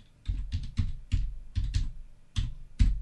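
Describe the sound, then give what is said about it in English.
Keystrokes clatter on a computer keyboard as a name is typed in, coming in irregular clusters of quick clicks with short pauses between them and no voices. “So here we're going to type in Slingbox.”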